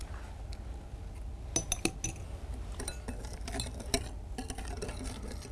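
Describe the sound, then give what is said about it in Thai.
Stirring a mixture while ingredients are added bit by bit, heard as faint, irregular clinks and taps of a utensil against a bowl over a low, steady background, with no talking. “ค่อยๆเติมแบบนี้นะคะเติมแบบนี้แล้วก็คนนะคะให้ส่วนผสมเข้ากันก่อนแล้วก็ค่อยเติมลงไปอีกนะคะ”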